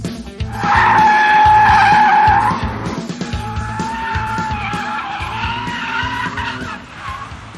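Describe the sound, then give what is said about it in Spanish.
Tires squeal as a BMW M3 M-series car is driven hard on a race track. A loud, wavering, high screech peaks early, then eases into a quieter sustained squeal over a low engine rumble. “Así que vamos entonces a la pista y vamos a conducir los nuevos Serie M de BMW.”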